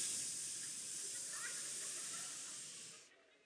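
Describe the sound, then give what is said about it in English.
Steady loud hiss from firewood soaked through by two hurricanes and doused in oil, sputtering as it burns in a fire; the hiss holds even, then drops away sharply near the end. “it was hissing at me. And I realized this wood had gone through two hurricanes. It was thoroughly saturated with water.”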